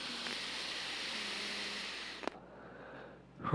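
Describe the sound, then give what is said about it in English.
A long, steady, airy deep breath during a relaxation exercise ends in a small click, followed by a quieter stretch and a brief rustle at the end. “Do it deliberately so that you can deliberately relax. Take a deep breath again.”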